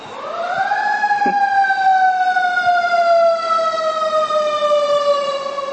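A siren wails in one long sustained tone, climbing quickly at the start and then gliding slowly downward in pitch, staying loud and steady throughout.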